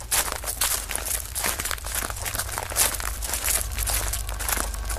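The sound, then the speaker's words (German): Footsteps crunch steadily along a gravel path toward a village, a dense and continuous scraping crackle with many overlapping steps and a low hum beneath, without any voices. “und drangen auf dem Kiesweg weiter in Richtung Dorf”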